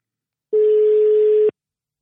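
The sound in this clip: A single steady ringback tone of an outgoing telephone call, about one second long and heard alone.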